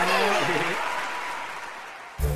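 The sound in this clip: A crowd applauding in an animated story, with a voice briefly at the start, then a wash of clapping that slowly fades before a short thump at the end.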